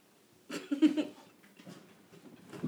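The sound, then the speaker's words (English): A female dog makes noise: a loud, rough burst of snuffling, scuffling sound starts about half a second in and lasts roughly half a second, followed by softer rustling and a renewed rise at the end. “Pardon me, dog. Thank you. I feel like I say every episode, please excuse my dog. She sometimes be doing doggy shit.”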